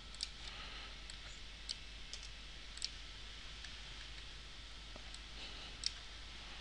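A computer mouse clicks while a spreadsheet formula for totaling payments is being built: a few faint, sharp, isolated clicks spaced irregularly over a steady low hiss, with no voices.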